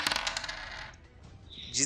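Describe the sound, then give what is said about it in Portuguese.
A die rolled onto a table in a tabletop role-playing game: a quick rattling clatter that fades, then a brief sharp clink at the end. “Certo. Rola o dado.”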